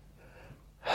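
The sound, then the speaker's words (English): A sharp intake of breath, one quick loud gasp that bursts in at the very end after a near-silent lull. “Thank you for that breath.”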